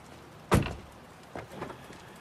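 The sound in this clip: A Mercedes car door sounds as a man gets out: a single sharp, solid thump, then a few quieter clicks and shuffling movements. There is no talk.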